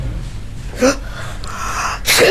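A sneeze from a female colleague during a phone call: a sharp, breathy burst preceded by a smaller catch of breath, heard over a low, steady background hum.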